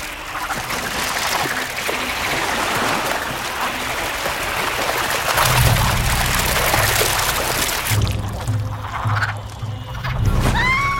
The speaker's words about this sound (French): Et revoilà les grenouilles